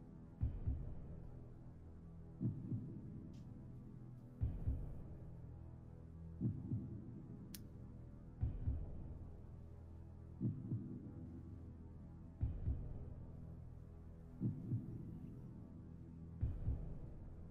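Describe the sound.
A rabbit's heartbeat picked up by a sensor on its shaved chest: faint, low, muffled double thumps repeating slowly and regularly about every two seconds over a soft steady hum, with no voices.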